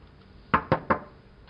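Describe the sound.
Knocking on a door as a parent pleads for an upset child to open it: three sharp, evenly spaced knocks in quick succession, fairly quiet, then stillness.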